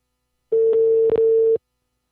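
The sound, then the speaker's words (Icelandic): Telephone dial tone heard while a call is being placed: a single steady, fairly low hum lasting about a second, broken by a couple of faint clicks near its middle, alone with no talk. “Hringi þennan Tryggvi Gunnarsson nokkur”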